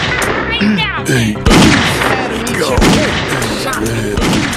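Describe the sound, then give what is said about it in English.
Gunfire in a video game desert ambush: a few sharp, loud bursts cut through dense, busy game sound, with voices talking over much of it. “Oh, he shot me! Got me.”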